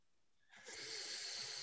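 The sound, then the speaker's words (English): A steady, breathy exhale is pushed out through one nostril while the other is held closed during a breathing exercise. It starts abruptly after a brief quiet and continues as a sustained, hissing rush of air. “And then once the air is up in there, then you switch with the other finger and you cover your left nostril. And you breathe out with the right nostril.”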